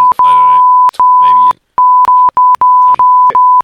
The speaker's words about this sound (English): The clever thing to do would be to put beeps in where they're not needed.